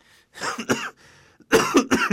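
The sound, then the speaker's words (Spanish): Harsh coughs from a person, several short bursts: a first pair, a quieter gap, then a louder cluster of coughs close together. “La tos no fue una de las conductas sancionadas.”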